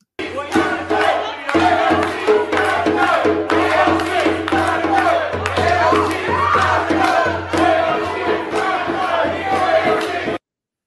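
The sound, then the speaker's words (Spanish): A crowd shouts and jeers at a U.S. congresswoman during a meeting. The loud, dense mass of voices continues without a break for about ten seconds. “los gestos cínicos que estaba haciendo cuando todas estas personas lo empezaron a abuchear, que se fuera. Escuchen esto.”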